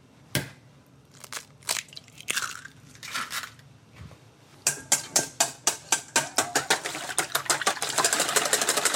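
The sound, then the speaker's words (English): Eggs whisked in a bowl: a few sharp, scattered knocks give way to a fast, steady run of rhythmic clicking strokes that grow denser toward the end. “Meantime, I'm gonna crack and whisk our eggs.”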